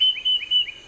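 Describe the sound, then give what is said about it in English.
A tufted titmouse sings three clear, whistled phrases. Each is a quick rising slur into a steady high note, evenly paced, loud and alone. “That's the song of the tufted titmouse.”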